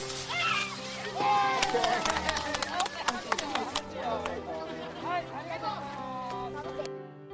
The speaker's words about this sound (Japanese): はい、水消火器の訓練の様子、子どもたちもね、真剣に取り組んでいる様子